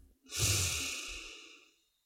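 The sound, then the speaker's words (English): A single deep breath, a soft breathy rush that swells quickly, holds for a moment and then fades away, heard alone without talk. “take a deep breath”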